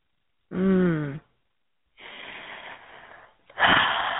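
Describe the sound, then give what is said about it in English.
A person taking a deep breath: a short voiced, sighing sound, a pause, then a long breathy rush of air ending in a louder burst of breath. “I take a deep breath when I begin”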